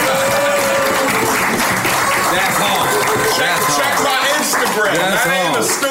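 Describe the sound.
Loud applause and cheering from an audience called on to make some noise, a dense roar of clapping and shouting voices that holds steady for about six seconds.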